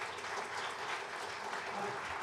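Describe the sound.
Steady, dense clapping from an audience at a church service, applauding a team. It holds at an even, moderately loud level for the whole stretch with no break or peak.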